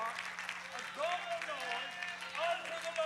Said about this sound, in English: Clap your hands and do what? And make a what? A double noise unto the Lord.